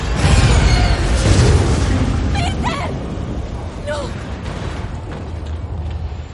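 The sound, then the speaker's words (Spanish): A spaceship blowing up in a science-fiction action film: a loud, deep rumbling boom that is strongest at the start and slowly fades, with brief voices over its tail. “¡Esto va a estallar! Gamora observa la explosión.”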